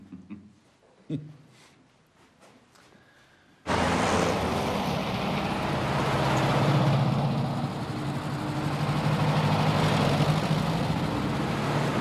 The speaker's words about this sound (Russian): Военные грузовики едут по дороге.